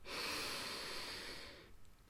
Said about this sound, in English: Breathe in and exhale out. Breathe in